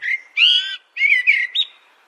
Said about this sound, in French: Dans les grandes villes, y compris au cœur de Paris, le mode de vie du merle est devenu urbain. On entend clairement chanter ces oiseaux au petit matin et même en pleine nuit.